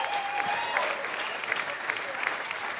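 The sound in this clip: Audience applause for a performer at an awards show: a dense, steady clatter of many hands clapping, sustained at an even loudness from start to finish.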